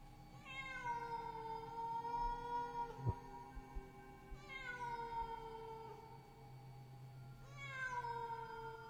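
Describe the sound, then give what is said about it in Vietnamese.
A cat meows plaintively in a kitchen, three long drawn-out wailing cries spaced a few seconds apart, each with a rich harmonic tone that falls in pitch, faint overall with a soft thump and low background hum between calls. “Vừa đặt chân xuống bếp, thì tiếng mèo kêu thảm thiết lại vang lên.”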